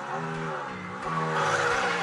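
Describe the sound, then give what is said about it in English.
A car engine roars with a dense harmonic growl that swells louder and climbs in pitch partway through, as if revving. “You can't feel the roar of the engine through this.”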